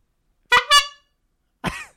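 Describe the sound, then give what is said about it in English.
Vehicle horn honking: two short brassy blasts in quick succession, then a pause and a third blast, loud and bright against silence. “What a wonderful sound. Thank you, Faith Trust Pan. That's a great horn.”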